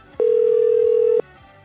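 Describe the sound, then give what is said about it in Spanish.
A steady telephone tone sounds while a call is being dialed: one continuous, even tone lasting about a second, with a clean start and stop against quiet background noise. “Estamos marcando. Espero que nos puedan contestar.”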